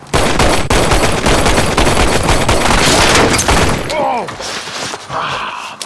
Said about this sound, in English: First time being shot at? Yeah. I have to say, I dislike it very much.